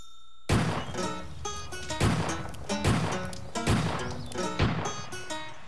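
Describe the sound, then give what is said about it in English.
Pistol shots ricocheting in the woods: five sharp, loud bangs spaced irregularly, each followed by lingering ringing tones. “What's he shooting at? Have you ever heard of the term ricochet?”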